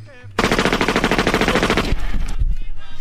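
Gunfire from a firing squad rattles out as a rapid, loud, dense volley lasting about one and a half seconds, then breaks off into a few quieter knocks and thumps.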